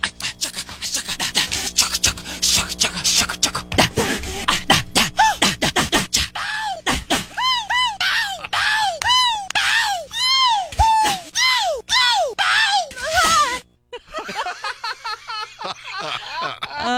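Many short non-singing vocal sounds from a pop song, edited together in order of intensity. Quick breathy clicks and gasps build into a rapid run of high, arched yelps, then a brief pause and a final noisy burst.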